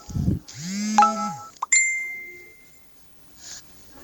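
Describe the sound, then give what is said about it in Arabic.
A notification ring made of short electronic chime tones with a couple of bright bell-like dings that fade quickly. The ring is moderately loud and no one speaks over it. “أيوة رنة”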